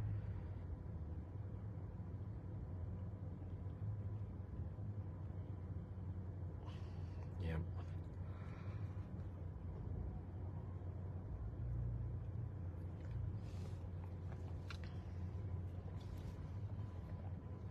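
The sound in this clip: Faint, steady low road and engine rumble from inside a car driving at night, with a few brief soft rattles partway through.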